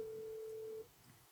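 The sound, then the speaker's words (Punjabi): A telephone tone sounds after a call disconnects: a single steady, pitched beep holds for under a second, then cuts off to faint line hiss. “तुहाडी आवाज, तुहाडा disconnect हो गया जी phone.”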